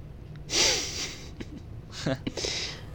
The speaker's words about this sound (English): Can you hear me exhaling through my nose?